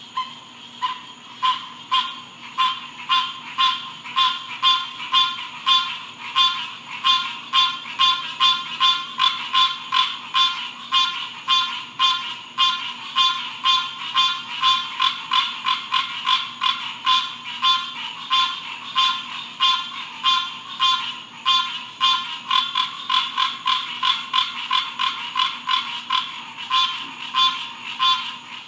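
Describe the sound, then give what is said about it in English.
Frogs croak behind a house in Florida in a steady, dense chorus of rapid, rhythmic rasping pulses. The chorus continues unbroken throughout, fairly loud, with no voices. “that was the sound of the frogs behind our house in Florida”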